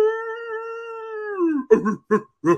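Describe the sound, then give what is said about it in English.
A voice imitates a dog howling, recalling dogs kept in a room above a football locker room. A long, steady, tonal howl sags in pitch at its end, then a few short, rough yelping bursts follow. “and you realize it's a dog. And then there's a chorus as they're joining in.”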